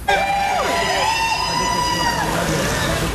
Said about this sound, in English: She got a warm welcome from fans lined up behind barriers outside one of the city's hotels.